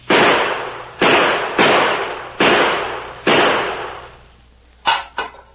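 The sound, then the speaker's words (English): Five gunshots fired at a tin can lying near a well, each a loud crack with a long decaying tail, spaced roughly a second apart, followed by two short, sharp clicks. “5 bullets can put that tin can into the well.”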